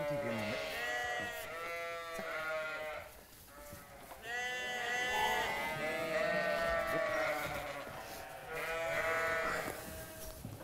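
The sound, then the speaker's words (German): Ram lambs bleating as they are separated from the rest of the flock before going to summer pasture, with many wavering, overlapping bleats in a few fairly faint bursts. “Jetzt geht's auf die Sommerweide. Jo. Die Bocklämmer müssen als erstes von der restlichen Herde getrennt werden.”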